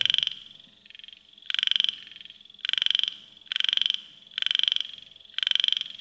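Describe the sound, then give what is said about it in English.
Frogs croak at night in a Cambodian jungle: a dense, buzzy chorus pulsing in regular waves. Louder bursts alternate with softer ones over faint background noise. “Cambodia at night, the jungles are pretty loud. You have a lot of insects. Some places, it's just 1,000 frogs going at once,”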